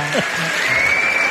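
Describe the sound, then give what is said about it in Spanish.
Applause at a political speech event, a short, steady burst of many hands clapping, with a voice heard briefly at the start. “Lo mejor son los aplausos.”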